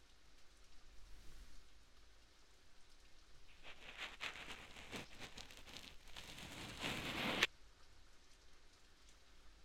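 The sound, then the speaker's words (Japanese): Steady, soft rain patters throughout while a cotton swab makes a dense burst of crackling, scratchy rubbing in the middle stretch that ends abruptly, then the rain continues alone. “この綿棒と、そして雨の音を聞いていたら、”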